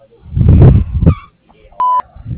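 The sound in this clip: Answering machine beep, one short steady mid-high tone after a muffled voice, with another voice starting just after it.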